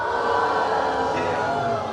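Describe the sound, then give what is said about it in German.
A crowd at a knights' tournament show boos loudly in unison, one long, sustained, droning jeer of many voices that holds steady and eases slightly at the end. “müsst ihn sofort bestrafen mit einem lauten Buh. Und ich glaube, das könnt ihr alle noch messen. Alle gemeinsam ein lautes.”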